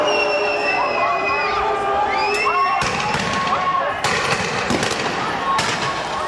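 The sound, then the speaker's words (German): A riot crowd after a demonstration in Geneva, with police firing rubber bullets: a continuous roar of shouting and cheering voices, broken by a few sharp bangs. “in Genf wüten nach einer Demonstration Chaotinnen und Chaoten und Vandalen. Die Polizei schreitet mit Wasserwerfern, Gummigeschossen und Tränengas ein.”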